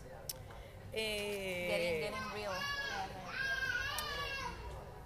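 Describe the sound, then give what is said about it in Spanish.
A baby interrupts with high, warbling vocal noises, a run of babbling and squealing sounds that rise and fall over a faint, steady background. “Estamos aquí siendo interrumpidas por un bebé.”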